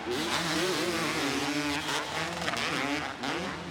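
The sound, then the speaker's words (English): Two-stroke motocross bikes revving hard on a race track, their buzzing engines wound out in loud, continuous overlapping whines that rise and fall in pitch as the throttles open and shift. “Awesome to hear these two strokes wound out here.”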